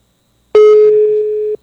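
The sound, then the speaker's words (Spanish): A single ringback tone from an outgoing telephone call that goes unanswered: one steady, mid-pitched electronic tone lasting about a second, heard alone with nothing before or after it. “Está marcando y luego no contesta.”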